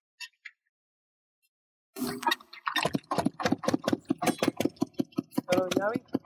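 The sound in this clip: An engine starts and settles into a steady chugging rhythm of sharp, evenly spaced pulses, with voices alongside.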